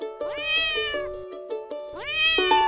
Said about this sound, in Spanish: Martín llega a casa con el blazer del colegio todo hinchado y ruidoso, que sale desde adentro. Un gatito blanco con muchas manchas negras y marrones.